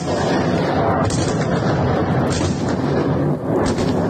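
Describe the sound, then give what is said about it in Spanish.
Explosions from a Russian attack on Kyiv form a dense, continuous roar of heavy blasts and booming rumble. It stays loud and steady throughout, with no clear pauses between impacts. “Sonido de la ofensiva sobre Kiev, que las autoridades han definido como masiva.”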